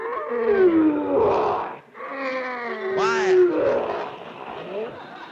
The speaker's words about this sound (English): That's that lion in that cage over there. Oh. Ferocious-looking beast, ain't he?